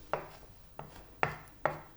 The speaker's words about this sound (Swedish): Kan jag bara hacka vidare här då?